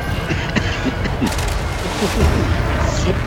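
Gunfire strikes the player's ship during a fight with a Thargoid in a space combat video game, many muffled booming impacts over a rumbling bed, growing louder toward the end.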